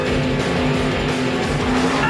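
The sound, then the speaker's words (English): A toy race car from a Hot Wheels Thunder Roller racing game makes a continuous loud engine roar mixed with squealing, skidding tyres, steady and unbroken throughout. “New Hot Wheels Thunder Roller Racing Game. Now you can take a Hot Wheels car and really drive it.”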